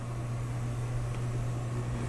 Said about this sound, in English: I am now standing in front of what must surely be the most beat-up Coke machine in the history of any place in the world